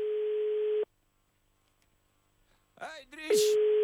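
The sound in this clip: Ringing tones on a telephone line while calling someone: a steady, buzzy tone lasting under a second, a pause, a brief voice, then the tone starts again.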